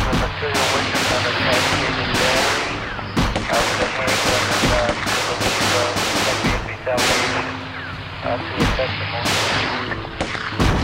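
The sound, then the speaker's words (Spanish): Explosions and gunfire in a video game during a bomb-detonation mission: many sharp, booming bursts in rapid, irregular succession over a low, steady drone. “Oh, hay que detonar la segunda bomba.”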